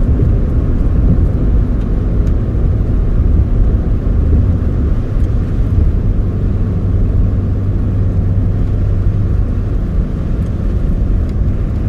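A car drives along with passengers aboard, a child among them. The steady low engine and road rumble holds at an even, loud level the whole time, with no talk over it.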